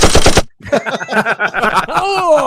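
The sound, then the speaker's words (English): A gunfire sound effect opens with a short, loud burst of rapid, machine-gun-like shots. Busy, layered sound with sweeping tones follows it. “Every time you say my name, I want to hear bullets go off.”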